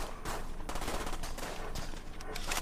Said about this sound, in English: This huge chunky gun goes off.